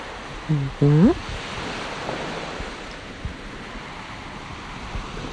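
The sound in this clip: Sea waves murmuring faintly as a steady, soft rushing wash in the background, with a brief voiced sound near the start.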